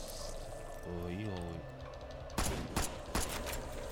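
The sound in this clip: Pistol gunfire in a video game: three sharp, loud shots in quick succession near the end, following a brief voice over steady game background noise.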